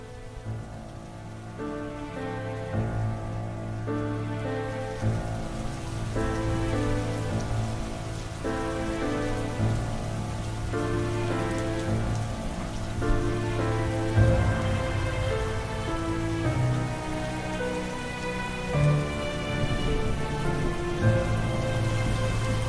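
Heavy rain falls steadily, a dense, continuous hiss of drops striking surfaces. It stays loud and even throughout, with no voices.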